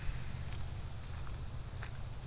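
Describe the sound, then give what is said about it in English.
Footsteps along a path littered with walnuts, kicking nuts aside while walking; a few soft, crunchy scuffs sit over a steady low rumble. “Kicking walnuts as I walk down the path because there's just that many.”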